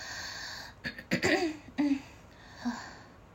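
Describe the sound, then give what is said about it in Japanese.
Someone with a sore throat clears it in a few rough, low bursts close together, then quiet follows, with no speech. “ちょっと咳払いがお聞き苦しくて申し訳ございませんどうしても喉の調子が良くなくて”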